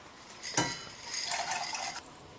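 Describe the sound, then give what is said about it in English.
Dry pasta is added to a pot of salted water: a brief clink, then a soft, rushing rattle as the pieces tumble in, before the sound cuts off to quiet. “Well, I'm going to add my pasta now to the water,”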